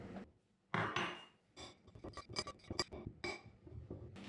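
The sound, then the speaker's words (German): Cake crumbs are mixed with buttercream in a bowl, giving many faint, irregular clinks, knocks and scrapes of a utensil against the bowl, with no talking. “Die andere Hälfte der Buttercreme hinzufügen und alles gut vermischen.”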